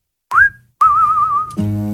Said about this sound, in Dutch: Kun je een beetje fluiten?